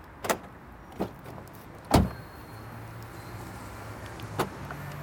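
A car is locked after parking following a trip to drop off used glass. A few sharp clicks and thumps are spread over several seconds, with one heavier thud near the middle, above a low steady hum and no voices.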